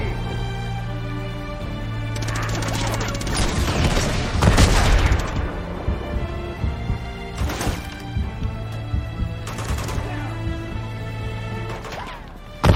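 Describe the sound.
A bazooka blast destroying a tank in a video game: a loud, rumbling explosion swells in the middle, surrounded by rattling bursts of gunfire and crashes over a sustained tonal game backdrop.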